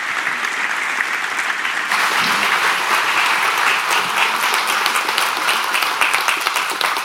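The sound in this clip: A church audience applauds to welcome a guest speaker, with loud, dense, steady clapping that carries on evenly throughout.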